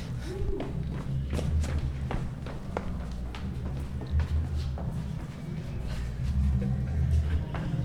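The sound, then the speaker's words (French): Footsteps walking down a staircase toward the spot outside a school where people smoke, with many steady, regular thuds over a continuous low rumble. “On va avoir le droit, après la montée d'escalier, à la petite descente d'escalier.”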